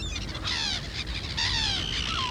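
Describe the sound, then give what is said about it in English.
Bird call from a magic bird in a children's story, heard as bursts of rapid, high, trilling chirps over a constant low rumble. “But this bird is a magic bird.”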